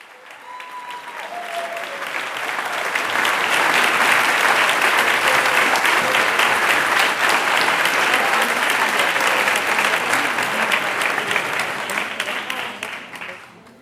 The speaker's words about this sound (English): the celebratory sounds of American artist Carolee Schneemann accepting the Golden Lion for Lifetime Achievement